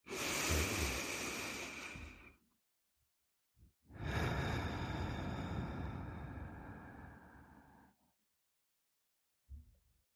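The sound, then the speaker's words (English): A slow, deep breath: a long audible inhale lasting about two seconds, a pause, then a longer exhale of about four seconds, followed by a brief faint breath; no talk. “Let's take a breath.”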